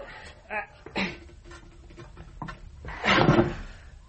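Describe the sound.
A large box being opened, with a few knocks and creaks followed by a louder, rough scraping burst near the end, while people talk quietly around it.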